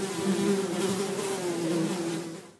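A bumblebee buzzes in flight, a loud, steady low drone with a rough, humming texture that holds evenly before easing slightly at the end.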